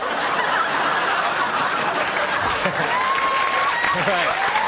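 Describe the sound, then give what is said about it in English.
Audience applause at a comedy show, a continuous spread of clapping mixed with some laughter, with a voice coming in toward the end. “My mom loves those applause breaks.”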